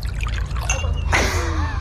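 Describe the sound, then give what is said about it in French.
Water is poured into a glass: a brief splashing burst of about half a second, preceded by soft breathy noise and trailing off into a ringing, gurgling tail. “En plus, elle a pris grand soin, professionnelle comme elle est, à enregistrer l'eau qui coule dans mon verre en disant ça va animer un peu le son.”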